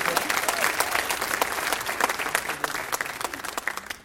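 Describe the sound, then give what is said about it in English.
An audience applauds to welcome a speaker onto the stage. The clapping is dense and continuous and thins slightly toward the end. “I'm just going to have you give a big hand for JR, if you don't mind. And welcome him.”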